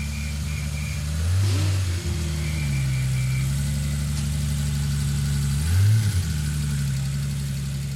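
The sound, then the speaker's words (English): A Singer car engine is heard as the car drives out at a motoring festival. A steady, throaty low drone rises in two brief revs, one near the start and one later, with no talk. “We will enjoy the sounds of that Singer as it drives out, as well as the sound of the Radford. Here goes the Singer.”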